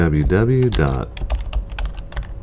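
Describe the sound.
Keyboard typing as the Windows Run dialog is opened, a short series of sharp, uneven key clicks following a brief stretch of voice at the start.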